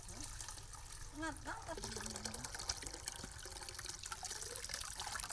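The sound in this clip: Sugar palm sap trickles and drips into a collecting tube, a soft continuous watery patter running beneath a voice speaking.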